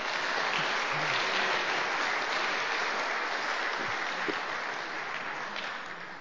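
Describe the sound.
Audience applause welcoming a standing group of the generation born since 1978: steady, dense clapping from many hands, sustained at an even level and tapering off in the last second.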